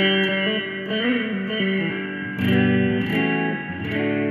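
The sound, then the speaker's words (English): Electric guitar played through its neck pickup, on an instrument with a single volume and tone control and a fast micro neck. Warm, sustained chords ring out and shift to a new chord midway, with a slightly effected, reverberant tone. “It's a neck pickup, so it sounds great.”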